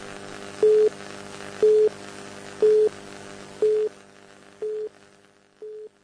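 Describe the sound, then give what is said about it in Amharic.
Telephone busy tone after a call was cut off: six short, mid-pitched beeps at an even one-second rhythm over a faint hiss, the last two slightly softer. “ተቋርጦብናል ግንኙነታችን ከሳቸው ጋር። እንደገና ደውለን እንሰናበታለን።”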